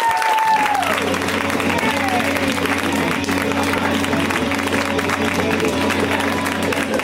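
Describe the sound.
Audience applause and cheering for a comedian visiting from New York: a dense, continuous wash of clapping and crowd noise that stays loud and even from start to finish.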